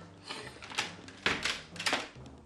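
A door opens in an Arabic radio drama as police arrive, heard as a few scraping, rattling bursts of moderate loudness with no voices.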